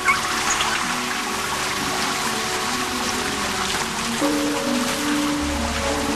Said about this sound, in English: Later, he's in the shower.